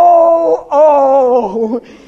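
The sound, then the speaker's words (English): A voice imitates a groan with loud, drawn-out moaning tones. There are two sustained sounds with a short break between them, and the second is longer and wavers as it trails off. “guys, you don't understand it, but women, I tell you what, when the baby is big, you groan a lot. Feel like in the spirit there's been a lot of groaning.”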